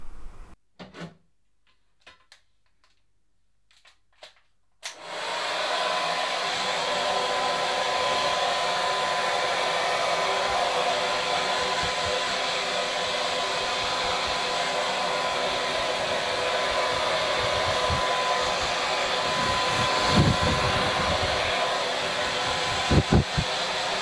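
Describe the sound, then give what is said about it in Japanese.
A hair dryer blows on someone's hair. A few soft knocks and shuffles are followed by a steady, loud whooshing roar that runs unbroken to the end. “髪も乾かしましょうね。”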